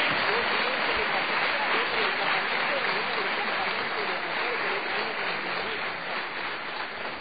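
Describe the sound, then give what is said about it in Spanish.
Applause from a church audience welcoming newcomers: steady, dense clapping that holds at an even level for the whole stretch and eases slightly toward the end. “Hoy démosles un fuerte aplauso.”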